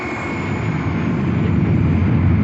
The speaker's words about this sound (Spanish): el moderno pájaro de acero se lanza a través de la pista con toda la potencia. Vertiginosamente devora el asfalto, levanta la nariz y poco a poco despega de la pista.